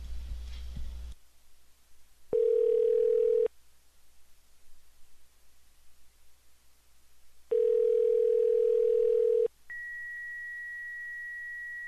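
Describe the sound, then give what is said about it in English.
Telephone tones while placing a call: two long, steady, mid-pitched tone bursts separated by a quiet pause, followed by a higher, sustained tone at the end. “I dialed the wrong number. Let's call this one.”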